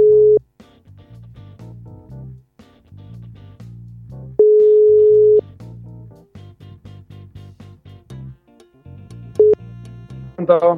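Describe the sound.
Telephone line tone as a call is placed: steady tone bursts about a second long return every few seconds, with harmonic music notes filling the gaps between them.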